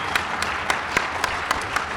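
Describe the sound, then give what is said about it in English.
Applause for a special guest sounds thin and sparse, with a soft bed of clapping and individual sharp claps popping out at a regular beat. “everybody, can we have a round of applause, please, for our special guest?”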